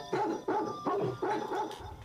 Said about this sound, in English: Well, poke him with a fork or something. Get him barking. Let's get him singing.